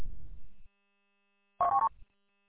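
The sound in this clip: A single short two-tone telephone dialing beep from a broken VoIP phone, loud and brief, following a low rumble and a stretch of silence.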